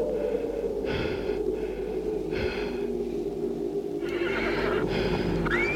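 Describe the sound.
Horse whinnies and snorts as a horse is untied and mounted: a few short, bright neighing bursts rising above a continuous low, steady background hum.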